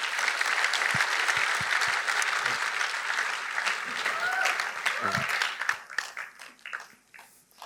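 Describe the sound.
An audience at a church service applauds to welcome a guest speaker to the stage. Loud, dense, steady clapping holds for several seconds, then thins and tapers off in the last couple of seconds.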